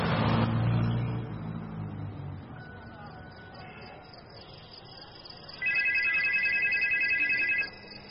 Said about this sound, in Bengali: পারিজাত বক্সীর বাড়ির ফোন বেজে উঠল